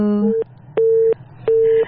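Busy signal on a telephone line after a caller has dropped off: three short, evenly spaced steady beeps of equal pitch with silent gaps between them.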